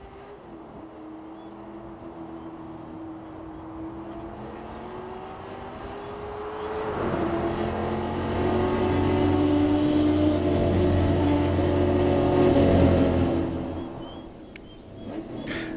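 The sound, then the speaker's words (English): Engine of a black Ford Galaxie 500 starting up and driving, a steady tonal hum that swells louder midway and then eases off, with insects chirping faintly throughout. “I slipped into my black Galaxie 500 and started it up.”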